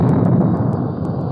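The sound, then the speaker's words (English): The 16-inch guns of the battleship Missouri firing off the east coast of North Korea give a deep, heavy blast. A loud, rumbling roar holds steady through the whole short moment. “The blast of sound you hear comes from the 16-inch guns of the Big Mole, the battleship Missouri.”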